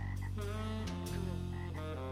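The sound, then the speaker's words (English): Frog croaking in a few deep, rasping, harmonic calls, loud and alone, each rising and breaking into the next without pause. “So he went to see Frog.”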